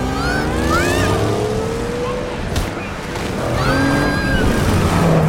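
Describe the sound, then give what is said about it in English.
A go-kart engine runs as kids drive it out of a garage at night: a continuous, fairly loud motor drone with whining tones that rise and fall, with no talk. “the kids start the go-kart and drive out of the garage”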